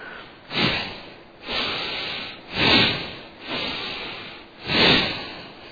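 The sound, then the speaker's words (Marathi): Forceful bhastrika breathing done as a breathing exercise: several loud, rushing breaths that come in an even rhythm, each swelling and fading, with no talk. “भस्रिकेसारखे एक दोन श्वास सोडून दीर्घ घ्या.”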